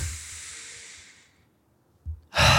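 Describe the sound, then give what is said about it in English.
A person sniffs the air on walking into an ice cream shop: a long, soft, breathy airflow fades out, then after a brief silence comes a short intake and a sharp, loud sniff at the end. “I walk into a Cold Stone and I take a sniff and I'm like,”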